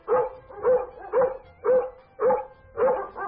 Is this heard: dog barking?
yes